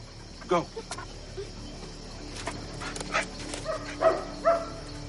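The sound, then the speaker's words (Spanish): Dogs brought by residents follow a scent trail through alleys and passages between houses, giving a few short, sharp barks and whimpers spaced apart over a low, steady background. “Los perros siguen su rastro.”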